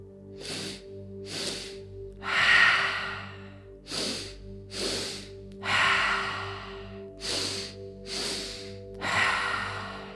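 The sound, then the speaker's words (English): A calming breathing exercise: two quick sniffs in through the nose, then a long, audible exhale through the mouth, repeated three times in a slow, steady rhythm with no talking. “2 sips in through nose, long exhale through mouth. A few more cycles of calming breath.”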